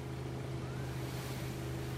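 A boat's engine drones steadily as it motors slowly along a harbour breakwater. The low, continuous hum stays even throughout, with no voices.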